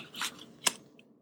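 Playing cards being shuffled by hand, heard as two short, crisp papery bursts, the second sharper than the first. The sound is faint and there is no talk.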